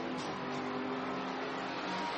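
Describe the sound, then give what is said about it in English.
Steady engine drone of a Porsche race car lapping during a race, holding a continuous, fairly even roar without a clear rise or fall across the whole stretch. “The leader coming round to put another lap on second place here.”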